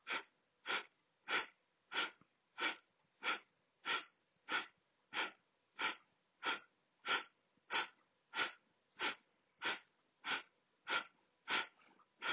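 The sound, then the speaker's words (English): Rapid breathing in and out through the nose during a breathwork meditation: many quick, evenly spaced airy huffs in a steady rhythm, all of similar loudness, with no talk. “let's take a full breath in through the nose, out through the nose. Inhale just about halfway, and we'll begin.”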